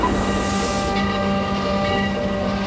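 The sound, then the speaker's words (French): A train at the Gare de l'Est railway station in Paris gives off a steady, loud rumble with hiss and sustained tonal hum, continuous throughout with no clear breaks. “À la gare de l'Est à Paris, l'effervescence est palpable. Les athlètes, sacs sur l'épaule et visages concentrés, montent à bord du train en direction de Berlin.”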